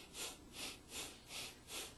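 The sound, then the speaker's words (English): Bhastrika pranayama breathing: five forceful, rhythmic nasal breaths in quick, even succession, each a loud hissing rush of air through the nose. “So learn to breathe slowly. Pranayama. Bhastrika.”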